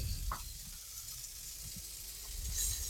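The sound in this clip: Meat pieces sizzle as they go into a hot oven, a faint, steady frying hiss with a few small crackles and pops scattered through it.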